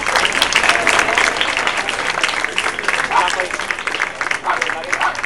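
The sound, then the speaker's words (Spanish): Audience applause at a cabaret show: dense, steady clapping from a crowd, loud and sustained without a break for the whole stretch. “Podéis aplaudir,”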